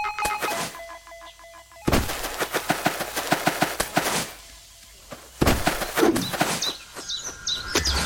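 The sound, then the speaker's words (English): A landmine explodes in a video game as the player lands on their own mine: two loud bursts of rapid, crackling, gunfire-like blasts, separated by quieter stretches with chirpy electronic game tones. “Oh, I think I landed on one of my own mines.”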